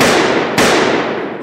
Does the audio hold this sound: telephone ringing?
no